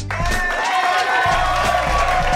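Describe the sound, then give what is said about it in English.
A live show audience in a bowling alley studio clapping and cheering. Steady clapping carries raised vocal whoops and cheers over it throughout the short burst. “See, I really enjoy the people clapping and commentating. I need a little more of that. Can I have some little bit more of that?”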